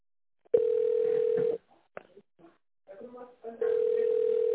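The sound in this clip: Telephone tone heard while a call is being transferred: two long, steady mid-pitched beeps, separated by a short gap with faint voices and clicks, the second tone running to the end.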